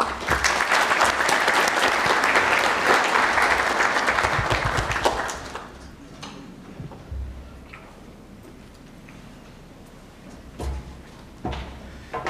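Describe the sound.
Applause from an audience welcoming a speaker to the stage at a Korea-U.S. strategic forum: dense, loud clapping for about five seconds, then dying away to quieter room noise with a few scattered claps.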